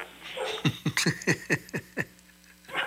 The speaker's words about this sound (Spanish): Perros.